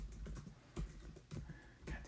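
Faint typing on a computer keyboard, a few soft, irregular keystroke clicks against a quiet background.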